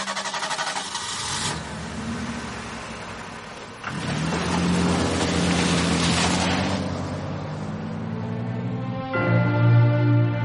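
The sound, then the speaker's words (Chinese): A car speeds along a road, its engine a steady mid-pitched drone that shifts in tone and grows louder a few times over the stretch. “车子一路疾驰”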